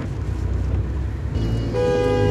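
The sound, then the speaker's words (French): A car horn honks impatiently in city-centre traffic at a short traffic light. The horn comes as one brief, bright, tonal blast near the end, over a loud, continuous rumble of road traffic. “Klaxonne tous les 2 secondes, ils sont pressés aussi.”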